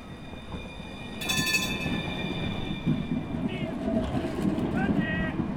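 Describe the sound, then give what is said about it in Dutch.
A tram passing near Den Haag Centraal: a steady, broad rumble of rolling wheels, marked by brief high squeals of wheels on rails. “Zo, dat is de tram.”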